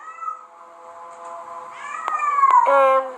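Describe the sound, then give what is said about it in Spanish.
Cats meow in long, drawn-out, wavering cries, several of them overlapping and swelling louder toward the end, with no talking. “escucho los gatos”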